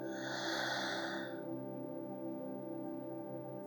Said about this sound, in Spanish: Comienza tomando una inhalación muy profunda por tu nariz, llenando tus pulmones de aire hasta el fondo. Y por tu boca exhala soltando todo el aire.